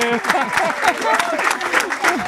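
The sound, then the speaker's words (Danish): A studio audience claps at a regional Danish radio show: busy, uneven clapping from many hands, with singing or talking voices running over it. “Nu klapper I helt vildt, og det er også dejligt”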